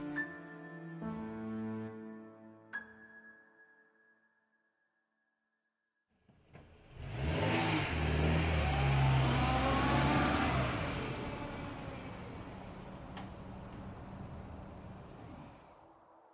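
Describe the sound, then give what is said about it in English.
A car drives away: after a short hush, its engine starts and accelerates, the loud revving tone climbing in pitch before slowly fading over several seconds. A few sustained tonal notes sound near the start. “We drove Kathleen, Jess, and Amy back to their houses and headed back ourselves.”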